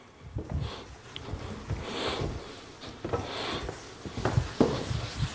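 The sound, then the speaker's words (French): Writing on a board: a series of short, irregular scratchy strokes at moderate loudness, with small pauses between marks. “Je vais vous écrire le coefficient de variation.”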